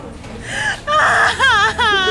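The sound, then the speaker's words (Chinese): A woman cries in a drama scene, giving a few loud, wavering sobs with pitch bending up and down, each burst separated by a short catch of breath. “你别哭”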